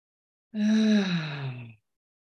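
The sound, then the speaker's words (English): A single deep inhalation drawn during a guided breathing meditation, lasting just over a second, soft and breathy with a faint voiced tone that sinks slightly in pitch, heard alone. “Allow any tension in the body to leave. Inhalation.”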